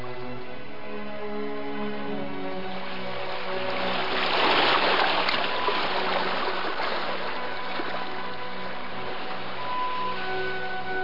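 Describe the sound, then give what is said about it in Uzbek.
Soft water sloshing around a rowing boat as its oars rise and fall in the dark, swelling in the middle and easing off again under a steady musical drone. “Garchi chol oy tepaliklar ortiga o'tib ketganligi uchun qorong'ulikda ularni ko'rmayotgan bo'lsa ham eshkaklarning ko'tarilib tushishi eshitilib turardi.”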